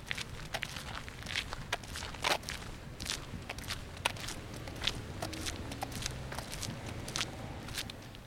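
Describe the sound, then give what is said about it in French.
Footsteps walking along the Hôtel Dieu-le-Comte: many steady, evenly paced steps with sharp heel clicks over a constant low background rumble. “Donc là, on, on, marche le long de l'hôtel Dieu-le-Comte.”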